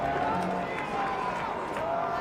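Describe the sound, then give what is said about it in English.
Baseball fans in a stadium cheer on a batter, making a steady, moderate roar of crowd noise with no clear peaks, and a few indistinct voices sit within it. “Fans trying to turn up the volume here a little bit and get behind Tyler Locklear.”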